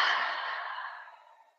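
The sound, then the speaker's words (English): A slow exhale through the mouth during a guided breathing exercise, a soft, sigh-like whoosh of air that starts fairly strong and tapers off gradually over more than a second, with no talk. “and inhale fresh air through the nose, filling up the body. And exhale through the mouth.”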